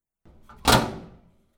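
A sauna door closes with one solid thud after a brief, softer stretch of movement, and the impact fades over roughly half a second.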